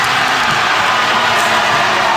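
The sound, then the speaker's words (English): Loud crowd cheering follows the announcement of Milano Cortina as Olympic host. It forms a continuous wash of many voices with no distinct pauses across the short stretch. “there were cheers, presumably from the winning city, although I'm not totally sure.”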